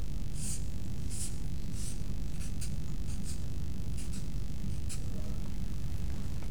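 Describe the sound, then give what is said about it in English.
Scratchy hand-drawn strokes as a box is sketched onto a diagram, a run of short, brisk scrapes at an irregular rhythm over a steady, faint background hiss. “And let me draw one of those a bit bigger. Put a box there.”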